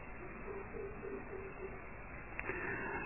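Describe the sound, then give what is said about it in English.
Soft bird calls drift from the trees, a faint, low cooing note repeating several times at an even pace over a steady, quiet background hiss. “While listening to me, you are listening to the birds singing in the trees too.”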